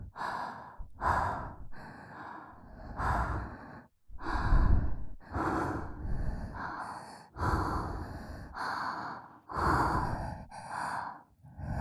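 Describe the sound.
Heavy breaths blown onto a microphone: many loud, airy exhalations in a steady rhythm with short pauses, each with a low puff of wind striking the mic.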